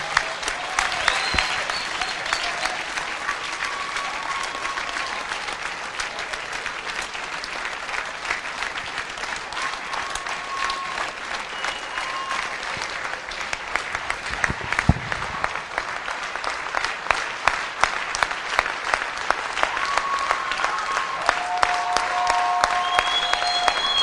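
Sustained audience clapping from a large crowd, a dense and continuous wash of many hands that stays steady and loud for the whole stretch and swells slightly toward the end.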